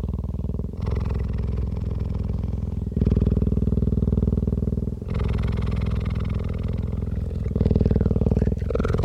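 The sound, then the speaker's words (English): Deep, rough purring breaths of a sleeping cheetah, loud and continuous, alternating in long steady phases of a few seconds each with brief dips between them, heard alone without voices. “It's the sound of a cheetah sleeping.”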